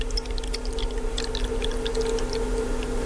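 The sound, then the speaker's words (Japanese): Hot water is poured from a ceramic vessel into a teapot holding tea leaves: a soft, steady trickling flow with scattered bright splashy ticks over a low constant tone, lasting the whole clip. “この注ぐ音もね、なんか少しだけ聞いていただきましたけど”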